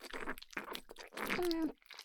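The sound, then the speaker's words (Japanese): Quiet chewing of food, with wet, crunchy mouth sounds in several short bursts, ending with a brief voiced tone. “お口でも、たくさんもぐもぐ。”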